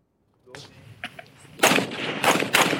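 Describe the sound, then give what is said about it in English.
Sharp gunshots ring out as Ukrainian troops test new U.S.-supplied M4 rifles, fresh out of the box, away from the front lines. A few scattered cracks come first, then louder, denser bursts follow in the second half. “Ukrainian troops try out new equipment, U.S. supplied M4 rifles fresh out of the box.”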